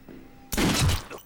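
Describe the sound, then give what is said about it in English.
A gunshot fired at someone on a house staircase bursts out as a sudden loud, noisy blast after a faint low hum, then lingers and fades over about half a second. “Ali shoots him in the chest”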